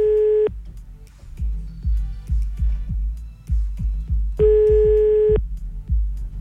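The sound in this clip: Telephone line tone after a call has been cut off, heard as two steady mid-pitched beeps, a short one at the start and a longer one later, over a run of soft, rhythmic low thumps.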